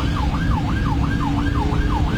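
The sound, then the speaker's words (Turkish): Ambulance siren wailing in a steady, rapid rising-and-falling sweep, about five cycles, over loud rumbling road and engine noise; no distinct horn blast stands out. “Siren ve korna işe yaramayınca ambulans sürücüsü bu kez anons yaparak yol istedi.”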